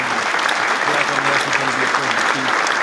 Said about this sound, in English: But I'm going to go ahead and give it a round of applause.